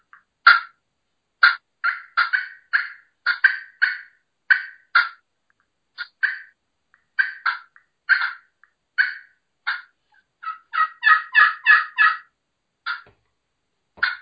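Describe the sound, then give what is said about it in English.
Turkey clucks worked on a pot and peg friction call: a long series of short, sharp, mid-to-high notes in an uneven rhythm. They bunch into a quicker run near the end, with no voices. “So let's hear you do some clucking on a friction, on a pot and peg.”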